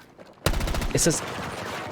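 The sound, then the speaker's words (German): A submachine gun fires in a video game: an abrupt burst of rapid shots forming a continuous rattling roll, loud at the start and fading slightly as it carries on. “Das ist immer noch die SMG, oder? Ja, das ist die SMG.”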